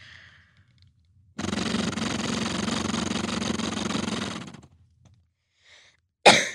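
A person exhaling through a flutter airway clearance device, which uses a magnet to shake the lungs and loosen mucus: one sustained, buzzing, rattling breath of about three seconds, with faint breathing before it and a short sharp burst at the end.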